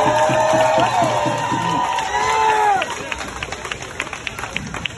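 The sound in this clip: Crowd at a movement rally cheering and shouting, a loud sustained roar with whoops and voices that drops after a few seconds into lower, scattered noise and claps.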